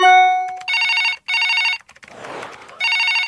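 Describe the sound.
A telephone rings on an outgoing call: a steady electronic tone comes first, then three loud trilling ring bursts, with a brief noisy rustle in the longer gap before the last one.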